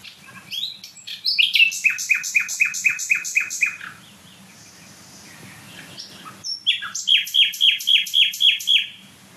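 A nightingale sings outdoors on an April day in loud, rapid phrases of repeated high chirps. Two bursts of song are split by a quieter pause with softer calls, over a low steady background hum.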